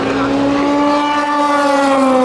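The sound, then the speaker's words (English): Race cars roar around a circuit through the Dunlop Bridge and the esses toward Tertre Rouge. A loud, continuous engine drone with strong whining harmonics holds nearly steady in pitch throughout, with no break. “I'm not going to interrupt and tell you what the cars are. I'm just going to give you a few minutes of some car audio porn.”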